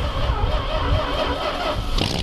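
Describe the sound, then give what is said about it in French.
Engine of a Fiat 500, the small Turin-built car, running with a steady, dense rumble and broad noise throughout, with no clear revving or gear changes. “j'adorais me balader en Fiat 500. Et c'est ce plaisir, cette balade, que je veux aujourd'hui partager avec vous.”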